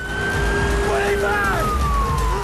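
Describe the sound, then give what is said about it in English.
A police van siren wails during a chase. Steady electronic tones bend and slide downward in pitch over a constant, loud roar of engine and road noise. “As they set off, a police van appears behind them and gives chase.”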